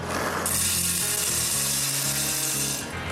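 A wooden coffee grinder grinding coffee beans gives a steady, coarse rasping and crunching that starts abruptly and continues without a break almost to the end.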